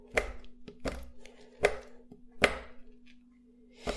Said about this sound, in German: Und als erstes werde ich jetzt mal die Schokolade hacken. Das mache ich einfach mit einem relativ großen Messer, was ich hier habe, auf einer Unterlage.